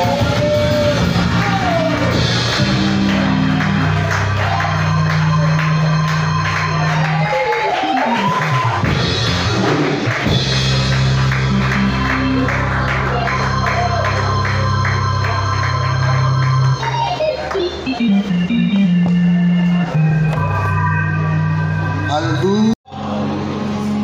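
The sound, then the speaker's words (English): Church audience shouting and yelling amen during a Sunday service, loud raised voices and whoops rising over dense, sustained music throughout, ending in a sudden brief drop near the close. “Somebody shout amen.”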